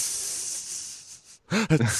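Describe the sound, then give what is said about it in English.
A hissing fake sob, a steady, breathy high hiss lasting over a second before a voice starts talking. “Like, you're even hissing in your fake sob.”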